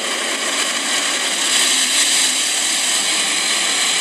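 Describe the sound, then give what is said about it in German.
Machinery and water jets of an automatic car wash roar in a steady, loud, hissing wash of noise that barely changes and swells slightly midway, with no talk over it. “Waschanlage, würde ich sagen.”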